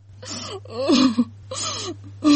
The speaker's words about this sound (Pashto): مور جانه ولی ژاړه لوری، په تنگ سوی یې که څنګه؟